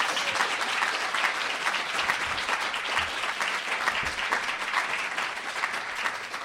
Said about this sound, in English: I think she deserves a hand just for that.